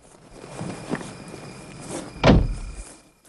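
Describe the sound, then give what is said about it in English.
A limousine's rear door shuts with one heavy, solid thunk, with a few soft footsteps around it and no voices. “The chauffeur closes the door, then walks away.”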